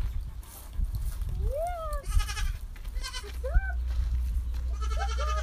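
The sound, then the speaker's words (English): Goats bleating in a few wavering, quivering calls at irregular intervals, some high and arching, heard over a steady low rumble with no clear talk. “Oh, the goats are making a cameo. Here they come. What's up, goats?”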